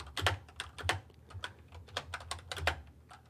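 Typing on a computer keyboard: faint, irregular clicking keystrokes that come in many quick bursts with short pauses between them.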